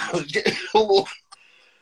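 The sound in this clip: Coughing and throat-clearing from someone whose drink went down the wrong pipe: a few short, voiced bursts close together, then a brief catch before quiet.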